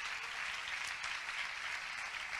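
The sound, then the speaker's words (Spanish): A church audience claps in praise to the Lord, a steady, continuous wash of many hands that is fairly faint and even throughout. “¿Cuánto le dan palmas de alabanza al Señor?”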